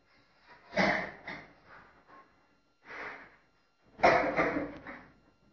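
Deep breathing during seated meditation with a straight spine: a few slow, airy inhales and exhales rise and fade, with quiet pauses between them and no talking.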